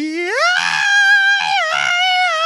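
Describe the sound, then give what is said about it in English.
A person screams a high note: the voice slides sharply upward at the start, then holds a loud, bright, sustained pitch with a brief dip before settling again, continuing to the end. “And I'm going to be screaming. And I'm going to be hitting that high note.”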